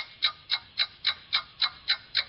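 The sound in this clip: A clock ticks as a quiz timer, with eight even, crisp ticks at a steady rhythm, each bright and clicky, alone without talk.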